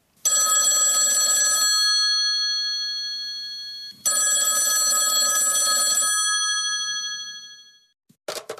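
A telephone rings twice, each bright, tonal ring sounding for about a second and a half before fading, and a brief knock follows near the end.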